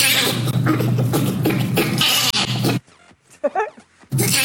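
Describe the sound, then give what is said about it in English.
A bonobo laughs in loud, raspy, rapid breathy pulses for nearly three seconds. A quieter stretch with a few brief squeaky, tonal calls follows, then the harsh pulsing burst returns at the end. “this is a bonobo laughing.”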